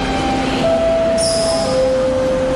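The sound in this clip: A train pulls in at platform 4 of a station, a loud steady rumble of rolling wagons carrying sustained high wheel or brake squeal tones that step down in pitch as it slows.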